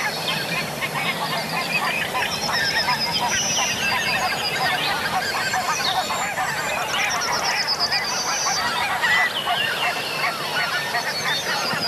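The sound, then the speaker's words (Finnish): Geese honk as a flock flies directly overhead on a spring birdsong morning, with many overlapping nasal honks forming a busy, continuous chorus that stays fairly loud for the whole stretch. “Joo, hanhet lentää ihan tästä meidän pään ylitse.”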